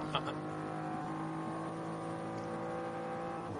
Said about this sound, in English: with Neil Verhagen at the wheel of that BMW M3 Touring as it challenges for sixth.